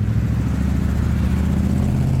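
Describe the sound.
A car engine accelerating on a motorway approaching an exit gives a loud, continuous low rumble with a steady droning tone and no talk over it.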